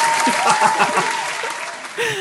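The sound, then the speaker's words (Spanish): Applause from a virtual, canned audience: a dense, steady clatter of clapping that runs throughout, with a voice talking over it. “quiero que la audiencia le dé un fuerte aplauso a Aitor.”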